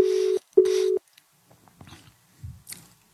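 A telephone ringback tone plays while a call is being dialed. Two steady mid-pitched tone bursts sound one after the other, followed by faint scattered clicks and rustles.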